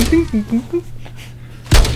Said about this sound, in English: Whoa! He shot it off the course! Uh-oh.